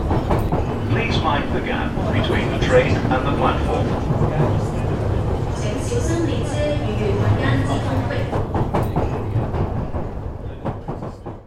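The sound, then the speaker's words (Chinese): A Line 2 metro subway train running, heard as a loud, continuous rumbling roar with rhythmic clickety-clack and muffled voices mixed in, easing slightly in volume at the end. “地铁二号线列车。”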